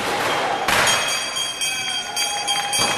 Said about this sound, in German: Zur Feier des Moments wurde geböllert und, wie es sich bei einem Börsengang gehört, die Börsenglocke geläutet.